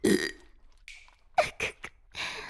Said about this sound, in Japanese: お主は本当に不意打ちゲップに弱いの。